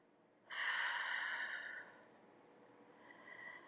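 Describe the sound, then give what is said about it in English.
A deep breath taken during a guided relaxation exercise: a single quiet, breathy inhale lasting over a second, then near silence before a fainter breath begins. “I want you to close your eyes and take deep breath as I'm talking to you.”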